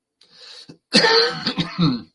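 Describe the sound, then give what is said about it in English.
An itchy cough comes as throat-clearing bursts: a faint, raspy one first, then a louder, rougher cluster of harsh coughs right after. “I've got an itchy cough. When I talk, it gets more itchy.”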